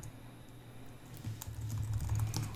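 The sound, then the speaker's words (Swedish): Fingers type on a computer keyboard in quick, soft, irregular clicks over a low hum. The tapping grows denser and a little louder in the second half, and no one speaks. “Jag ska bara skriva den här. Så. Läs inte vad jag skriver, utan bara prata på.”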